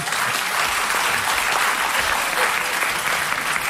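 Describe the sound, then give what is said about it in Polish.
Applause at an award ceremony after a statuette is presented: dense, steady clapping from many people, loud and even for the whole clip without a break. “Brawa także dla Julka.”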